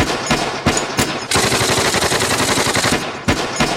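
Loud gunfire at a first shooting practice: a few separate shots, then a long rapid automatic burst, followed by a couple more sharp single shots.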